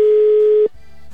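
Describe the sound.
A telephone call tone for an unanswered call, a single steady mid-pitched electronic beep that holds for about two-thirds of a second and then cuts off abruptly into faint background hiss.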